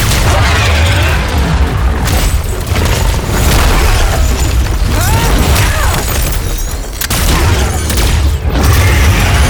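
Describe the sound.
Dense, loud gunfire erupts in an action scene as armed officers open fire on a target, a continuous barrage of overlapping shots and booming bursts with only brief dips in intensity.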